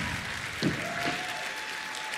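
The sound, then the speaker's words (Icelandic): Audience applause for a band at the final of a music competition, a thick, continuous wash of clapping with one or two slightly louder swells. “Það má alveg klappa meira.”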